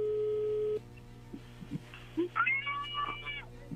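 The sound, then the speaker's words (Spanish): A telephone ringing tone as an outgoing call connects: a steady, mid-pitched electronic tone holds for under a second, then cuts off, leaving faint, scattered sounds and brief voice-like tones. “ya entra la llamada.”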